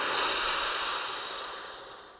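A deep breath blown out during a guided grounding exercise: a single long, breathy rush of air that starts strong and steadily fades over about two seconds, with no voices.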